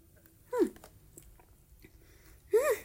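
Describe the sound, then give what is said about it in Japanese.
Two short, faint gulping swallows while someone drinks the last sip from a plastic soft-drink bottle, spaced about two seconds apart against near silence. “じゃあ最後の一口、今飲むね。よいしょ。はい、じゃあ飲みます。”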